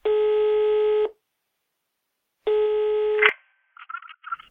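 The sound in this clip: Telephone ringback tone as a hospital doctor calls a patient's relatives: two buzzy one-second tones with a pause between them. A click cuts the second tone short as the call is answered, and a brief muffled voice follows on the line.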